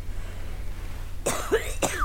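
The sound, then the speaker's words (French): Two harsh, loud coughs from a person with a persistent nightly cough break a long quiet stretch, with no talk around them. “Je tousse, c'est vrai, la nuit. Toutes les nuits, depuis un moment déjà.”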